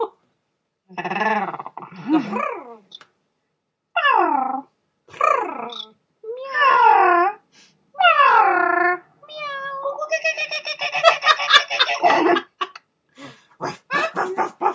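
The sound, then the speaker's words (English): Several people imitating animal noises, with barks, meows and bleats in a series of short voiced calls. The calls grow denser and overlap toward the end. “That woke up Roddy. I shouldn't bark, should I, Roddy? This has become animal noises,”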